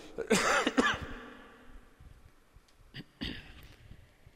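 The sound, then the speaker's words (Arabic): A man coughs and clears his throat during a lesson at a mosque. A harsh cluster of coughs comes early, and a shorter, rougher burst follows after a quiet pause. “كرر اعتذاري يا أخواني كثرة السعال”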